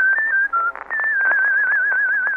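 Human whistling of a melody: a clear, pure tone moves through a few short notes with brief gaps, then settles into a long sustained note with gentle vibrato.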